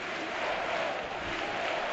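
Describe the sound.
A football crowd at a Villarreal match chants "sí se puede", heard as a dense, steady roar of many voices throughout.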